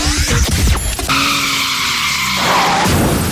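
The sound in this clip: Car tires skid and squeal in a sustained high screech lasting about three seconds, with a shifting, wavering pitch over a rough roar.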